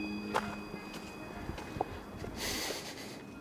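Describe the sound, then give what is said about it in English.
Footsteps of one person walking on Joppenburg Mountain, faint, soft and irregular, with a low outdoor hiss beneath and no talk. “And so naturally, I sent them about half an hour of me walking around on Joppenburg Mountain.”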